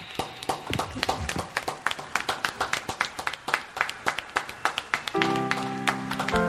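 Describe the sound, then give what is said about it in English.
A concert audience claps together in a steady rhythm of sharp, evenly spaced claps, then sustained musical tones come in near the end. “Oh, everyone applaud in here.”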